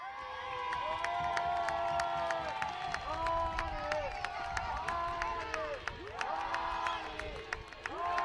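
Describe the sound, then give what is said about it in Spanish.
Stadium crowd roars, cheers and applauds as a departing football player, a fan favourite hailed as a legend of Casablanca, leaves the pitch; the ovation is loud and sustained throughout, with a dense, unbroken wash of voices and clapping. “Ovacionado por la grada”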